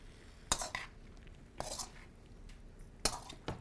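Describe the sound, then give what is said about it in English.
Food being mixed with a utensil in a thick metal kadai pan, heard as a few sharp, quiet metallic clinks and brief scrapes spaced apart over near silence. “So I'm just going to mix this up, and then I'm going to let it sit and cook and come together.”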